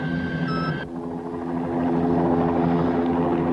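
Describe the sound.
A helicopter searches over sand dunes with a steady, continuous rotor drone. Its low, even hum holds throughout, with a faint higher whine near the start.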